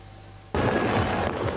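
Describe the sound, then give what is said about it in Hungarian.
New Year's Eve fireworks launched from a castle: after a low, quiet hum, a sudden loud burst erupts and carries into a sustained, rumbling crackle to the end. “A szilveszteri tűzijátékot idén a szokásostól eltérően a pozsonyi várból lőtték fel, ezzel is jelezve, hogy különleges évforduló a mostani.”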